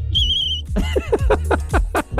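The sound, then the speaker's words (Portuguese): A whistle gives one short, steady, high-pitched tone that stops abruptly. It is followed by a louder run of other sounds. “Cadê meu apito?”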